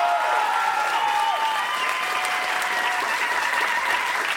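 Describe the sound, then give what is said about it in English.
Enthusiastic audience applause at a live comedy show as a performer is welcomed onto the stage. The clapping is dense and steady throughout, forming an even wash of sound with no breaks. “Ladies and gentlemen, please have a huge hand for Mike Phirman.”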